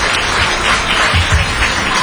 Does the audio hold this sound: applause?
yes